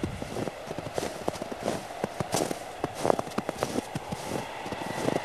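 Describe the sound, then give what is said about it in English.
Footsteps crossing a plain of ice: many crisp, crunching steps in a steady walking rhythm, alone and at a moderate level. “So you decide to head back towards your shelter. You walk away from the plain of ice.”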